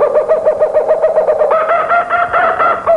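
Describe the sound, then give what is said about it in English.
A kookaburra, a large kingfisher, calling in a loud, rapid run of repeated hooting notes. Partway through, the call grows fuller and harsher into a raucous, cackling chuckle. “And the voice was that of a kookaburra. It's a hefty member of the kingfisher family.”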